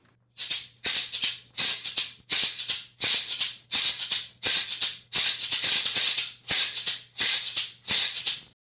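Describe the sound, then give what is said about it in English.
A Colombian maracón shaker played in a steady, repeating pattern of bright, hissing shakes, heard alone with no voices. “So let's listen to the maracón.”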